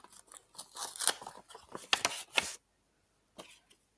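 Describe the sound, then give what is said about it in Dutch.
An envelope is torn open: a quick run of rasping paper rips and crinkles, then a pause, then a short final rustle. “Dus die kleur zit in envelop 2. Dus die mag je nu openmaken.”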